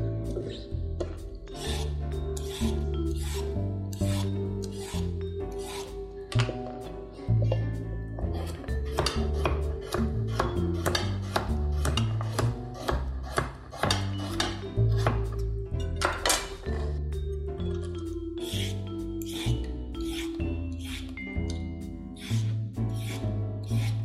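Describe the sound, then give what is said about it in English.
A kitchen knife chops carrots and parsnips on a board, making many sharp, crisp strikes in an uneven, steady rhythm that runs on and on. “I'm trying to not chop up my fingers in the process.”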